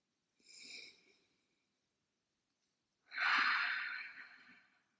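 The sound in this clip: A deep breath taken alone: a short, soft inhale, then after a pause of about two seconds a longer, stronger exhale that slowly fades, both faint and airy.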